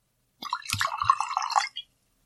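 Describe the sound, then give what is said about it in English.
Jameson Black Barrel whiskey pours from the bottle into a glass in a short, gurgling stream lasting just over a second, ending with a small final drip. “You take one bottle of Jameson Black Barrel, pull off the cork and pour into glass”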